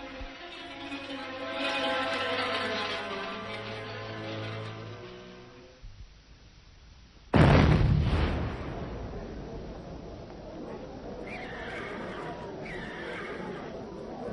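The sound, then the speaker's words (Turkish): A sudden, massive explosion thought to be a bomb cuts through sustained tonal sound. It follows a brief lull, hits hard with a deep, booming burst, and then leaves a long, heavy rumble that slowly thins out. “Ne oldu? Müthiş bir patlama. Yıldız tarafından geldi. Yer yerinden oynadı sanki. Ne oldu? Neydi bu? Ne taraftan geldi? Bomba galiba.”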